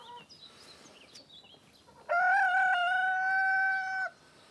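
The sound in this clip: A hen sitting on eggs in a chicken coop makes faint, soft chirping sounds, then gives one loud, drawn-out call that holds steady for about two seconds before stopping abruptly.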